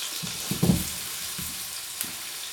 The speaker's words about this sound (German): Ihr hört schon Knusp äh, Spritzen und Brutzeln gebe jetzt die Orangenscheiben dazu.